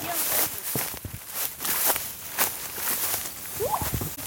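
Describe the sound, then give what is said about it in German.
Footsteps swish and rustle through knee-high grass on the way to a rock outcrop near Toowoomba in Queensland, Australia, with steady uneven strides and a voice speaking over them. “müssen wir etwa 20 Meter lang durch kniehohes Gras laufen”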